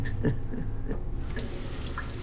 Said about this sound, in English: He turns a tap on and holds a flannel under the running water, soaking it through.